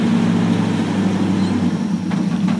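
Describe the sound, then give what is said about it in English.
A big V8 truck engine idles while warming up, giving a steady, low rumbling drone that holds an even tone throughout. “Oh, well, this is when it usually turns off. And the accelerator goes. You let it warm up a little bit? Yeah, I do. Big V8 like that has to warm up a little bit”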